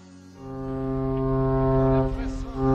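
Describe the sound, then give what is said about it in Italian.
A ship's horn signals arrival with a long, deep, steady blast, rich in harmonics, that swells in loudness and holds to the end. “Ed ecco il suono della nostra sirena che ci segnala che stiamo approdando nella nuova rubrica”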